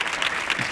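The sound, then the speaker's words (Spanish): Brief applause from a studio audience on a Spanish television show: a short, dense burst of clapping that lasts under a second. “Otro aplauso para él. Ole, ole.”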